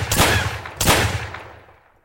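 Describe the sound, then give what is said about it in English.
Two sharp handgun shots fired a fraction of a second apart, each a loud, cracking burst followed by a long decaying tail that fades out slowly, with no voices. “I kicked in the door. My gun had 6 bullets, but it only took me 3.”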